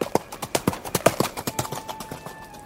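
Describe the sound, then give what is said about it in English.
Pony hooves trotting in a steady, even clip-clop, with many crisp hoofbeats following one another at a brisk, regular pace through the whole stretch. “He trotted all the way to the edge of the forest, down the hill, and right to the Great Lake.”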